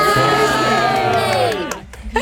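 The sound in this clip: A school group of children cheering together in a radio studio, a loud, sustained chorus of high shouting voices that fades away near the end.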